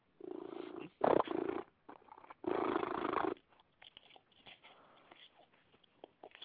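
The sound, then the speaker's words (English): A cat purring loudly in rumbling bursts with short pauses between them, then settling into fainter, softer purring and light rustling toward the end. “Yes, all that interference is my cat.”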